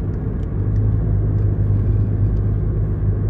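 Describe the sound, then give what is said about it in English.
Tires rolling on the road as a car drives, a steady, loud low rumble with a whirring road hiss that runs unbroken and without talk. “I can hear my tires.”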